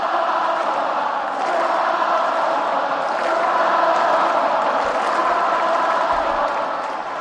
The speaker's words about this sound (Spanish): Ovaciona, ovaciona ahora la caja mágica a Rafa.